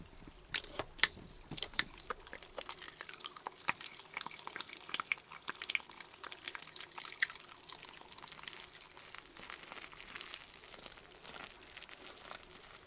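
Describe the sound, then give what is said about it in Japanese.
Soap lather being worked up during a washing produces soft, wet crackling and squishing, made of many tiny pops and clicks that stay quiet and continuous throughout. “ではシャボンで洗ってまいります。”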